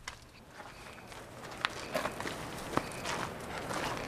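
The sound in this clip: Footsteps walking across uneven alpine pasture: a few soft, irregular steps, faint and scattered over a steady background hiss.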